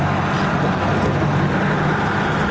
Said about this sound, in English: So the guy drives away.